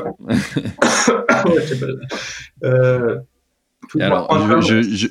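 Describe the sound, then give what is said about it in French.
A person coughs and chokes in the middle of a conversation, with harsh bursts of coughing and strained throat clearing. Halting talk surrounds the fits. “je suis en train de m'étouffer, pardon.”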